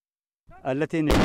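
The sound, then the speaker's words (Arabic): A sudden heavy boom of artillery cannon fire on a front line in Ethiopia's Afar region bursts out abruptly after a brief stretch of voices and stays loud to the end. “سمت صوت الحوار وانطلقت أصوات المدافع، ونحن الآن أول فريق صحفي يصل إلى هذا المكان. اندلعت أصوات المدافع في الجبهة الأمامية”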